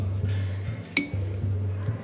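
Glasses clinking together in a toast: one bright, sharp clink rings out briefly over a steady low drone that drops out now and then.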